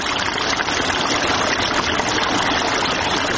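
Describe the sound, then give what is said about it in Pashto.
Irrigation water flowing through a pomegranate orchard in the Sepidkhar area near Tarinkot, a loud, continuous rushing hiss with a low rumble underneath and no pauses. “سیف الله د ترینکوټ ښار اړوند د سپیدخار په سیمه کې د انارو پر باغ اوبه لګوي.”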